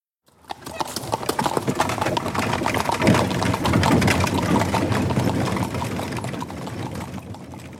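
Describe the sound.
Two horses pulling a chariot clop their hooves in a dense, steady rhythm that stays loud and continuous after a quick start.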